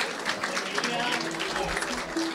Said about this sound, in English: What you're hearing is the annual European Tree of the Year Awards, a competition that started more than 10 years ago and is organized by the Czech Republic.